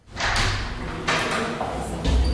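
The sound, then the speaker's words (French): A door to the radio station's room is pushed open, making a sustained scraping rush with a couple of dull thuds. “Je pousse la porte du local de la radio.”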